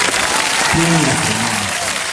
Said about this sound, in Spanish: Un aplauso para Newton